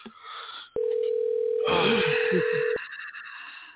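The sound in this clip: Telephone line tone while a caller is being connected to a show: a steady single-pitched tone holds for about two seconds and cuts off abruptly, with faint voices heard over part of it and brief noise before and after.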